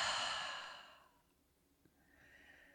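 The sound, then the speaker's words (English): A single deep, breathy exhale through an open mouth during a guided breathing practice, loud at first and then fading into near silence, before a faint airy hiss returns toward the end. “And now open the mouth and exhale.”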